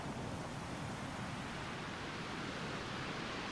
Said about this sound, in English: You are focused entirely on the rhythmical coming and going of the waves.